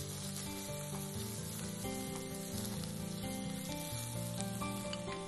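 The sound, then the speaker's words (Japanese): Steady sizzling of garlic and ginger frying in a pan over medium to high heat, a quiet, continuous crackle with fine popping throughout. “このようにニンニクと生姜がに火が通ってプツプツといってきましたら、ここに干し椎茸のみじん切りしたものを入れて炒めていきます。”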